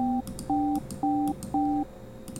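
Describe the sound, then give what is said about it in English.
Telephone keypad tones enter a PIN on a phone line: a steady series of short, clean two-note beeps about half a second apart, each holding briefly before a gap, with faint background noise and no talk. “Enter your 6-digit PIN number.”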